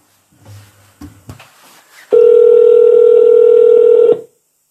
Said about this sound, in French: Ça numérote.